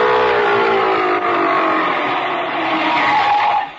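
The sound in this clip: An old car engine on a ranch drives up with a loud, steady, rough droning roar and tyre noise, holding strong for several seconds before cutting off abruptly near the end.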